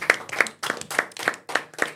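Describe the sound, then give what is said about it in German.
Seven crisp hand claps, loud and evenly spaced, applauding someone who gave a correct answer. Each clap stands out sharply against near silence between them. “Ja, Applaus, dass du es mal wieder wusstest.”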